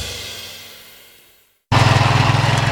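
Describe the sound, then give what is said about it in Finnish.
A lawn mower engine stalls, its drone sagging and fading to silence, then a loud, buzzing engine roar cuts in abruptly after a short pause. “Simahtiko ruohonleikkuri?”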